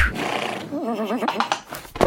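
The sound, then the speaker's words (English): A voice imitates a pony whinnying during a pretend fight with kangaroos, a wavering, trilling cry that rises out of excited, noisy chatter and ends in rough vocal bursts. “The kangaroos and the pony are fighting.”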